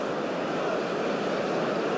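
Water flowing as a steady, even rushing noise with no distinct splashes, constant in level throughout.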